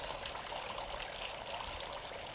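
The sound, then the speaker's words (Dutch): Water gushing and splashing as an elephant sprays it from its trunk like a fountain, a steady, dense hiss with no breaks. “Hij zuigt zijn slurf vol water en spuit ermee als een fontein.”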